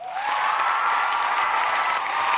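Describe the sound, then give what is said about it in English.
Sold-out audience ovation at a Harvard Books author event at the First Parish in Cambridge, Massachusetts. Dense, steady applause fills the whole stretch, loud and even, with a faint tonal whoop near the start. “Believe me, that rapturous ovation was not for me.”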